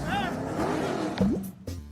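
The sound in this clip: A truck's engine hums in a mobile driving game about a route from San Diego to Phoenix, with a rising electronic sweep near the end, heard under steady talk.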